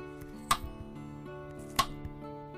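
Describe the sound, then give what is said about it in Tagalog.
Knife slicing a peeled radish: two sharp, crisp cuts stand out, with a few fainter taps between them, over a steady low hum. “Sige, hawakan mo tong kutsilyo. Tapos hiwain mo yung labanos. Nabalatan ko na yan. Hiwain mo na sakto yung nipis.”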